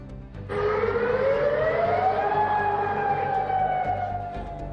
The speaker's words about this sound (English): Alert sound across Kuwait, Bahrain, Qatar, and Jordan.